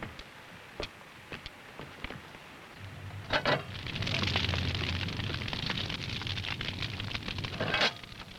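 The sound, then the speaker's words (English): A wood fire burns faintly. Scattered crackles and pops give way to a steady rushing roar, with sharp pops continuing on top. “Now, you get over here and put these sticks on the fire.”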